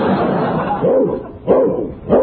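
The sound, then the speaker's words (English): A dog barks or yelps in three short, tonal bursts spaced about half a second apart, with a steady murmur of background noise between them. “the reason I came here was to bring this dog you lost. Is this your dog?”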